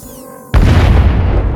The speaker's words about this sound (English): The grey ship exploded.